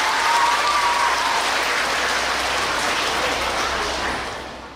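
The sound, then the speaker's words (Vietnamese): Sustained applause from an audience at a Buddhist teaching session, dense steady clapping that holds level for about four seconds before tapering off, with no voices over it. “Cho một tràng pháo tay thật lớn.”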